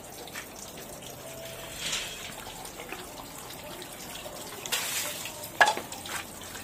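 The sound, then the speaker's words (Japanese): Running water splashes as hands are washed before rinsing the mouth: a steady soft hiss with a few louder splashy bursts near the middle and end, alone without talk. “じゃあ手洗いましょう、 はい、まず手を洗いましょう、”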